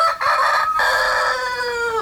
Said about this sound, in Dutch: En dat was de haan van Jan-Dirk Nijkerk